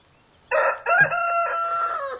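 A rooster crows once, a loud, harmonic call that starts abruptly and holds for nearly two seconds, rising and wavering slightly before trailing off.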